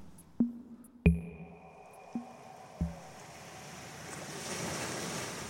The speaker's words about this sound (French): elle joue avec l'arbre, le morceau de bois qu'elle a dans les mains pour bouger l'eau